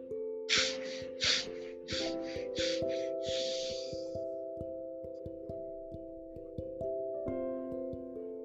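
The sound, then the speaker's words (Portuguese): Several short, sharp sniffs through the nose for a breathing exercise, then one longer drawn breath, all over soft sustained background music. “São quatro respirações curtas pelo nariz e uma longa. Você então solta o ar lentamente.”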